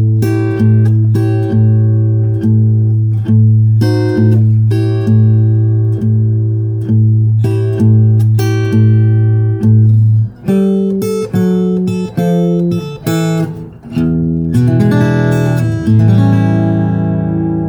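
Fingerpicked blues guitar chords, an A7 shape played against a G, ring out in a steady, loud repeating picking pattern, then change to busier phrases and close on a sustained, arpeggiated ending chord.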